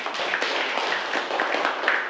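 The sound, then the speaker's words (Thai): A class of students claps for group five at a teacher's request, a steady, dense patter of many hands clapping that keeps going evenly throughout. “ปรบมือให้กลุ่มห้าค่ะ”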